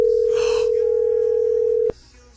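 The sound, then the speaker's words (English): Ringback tone on an outgoing phone call to Portugal: one steady, unbroken mid-pitched tone holds for about two seconds, then cuts off abruptly. “We're ringing Portugal. Well, I hope she's got roaming on, because we're going to try and call her now”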